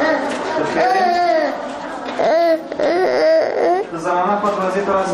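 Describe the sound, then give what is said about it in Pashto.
Young children aged two to five, sick with measles, cry in a provincial hospital in Tarinkot: continuous, overlapping wailing and sobbing from several small voices with wavering pitch, loud throughout. “دا د هغه ماشومانو ژغونه دي چې له چوری ولسوالۍ څخه د ترنکوټ ولایتي روغتون ته راوړل سوي دي.”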